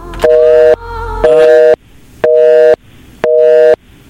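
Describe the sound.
A telephone busy tone after a dropped call: four loud, evenly spaced beeps of steady pitch, each about half a second long with equal gaps, preceded by a short burst of noise at the start.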